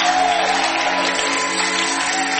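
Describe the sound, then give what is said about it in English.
A church audience applauds after a prayer, a dense, steady clatter of many hands at a loud, even level with crowd noise mixed in. “I think we should give God another applause.”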